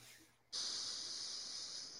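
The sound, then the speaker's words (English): A long nasal inhale during a guided breathing exercise: someone breathes in through the nose, starting abruptly and holding as a loud, steady, airy hiss for about a second and a half. “So if everybody could just kind of breathe in through their nose, hold it for 30 seconds, and then we'll breathe out. So let's do this. So breathe in.”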